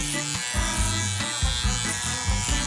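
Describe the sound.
An electric razor buzzes as someone shaves, a steady motorised drone whose pitch shifts and steps repeatedly over a few seconds.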